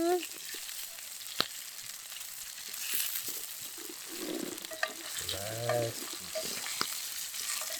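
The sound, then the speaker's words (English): Sizzling from a roast dumped into a hot pan: a steady, crackling fry hiss runs throughout, with a few sharp clinks and pops breaking through. “So I guess with the roast, I'm just gonna dump it in here and put some aluminum foil over top of that.”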